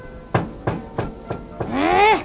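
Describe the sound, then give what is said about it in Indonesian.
Firm knocking on a house door, five evenly spaced raps in a steady rhythm, the last one running into a drawn-out tonal sound. “Siapa itu? Lancang sekali mengetuk pintu rumahku ya.”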